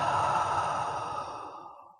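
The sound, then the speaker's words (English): A deep, slow breath out through the mouth during a relaxation exercise, one long airy sigh that fades away over about two seconds. “Take a deep, slow breath in through your nose and out through your mouth.”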